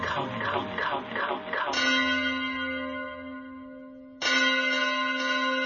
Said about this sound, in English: I hear the sound of the bell. It brings this message to me.